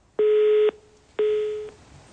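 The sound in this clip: Two identical steady telephone tones from a call that fails to connect, each lasting about half a second with an equal pause between them.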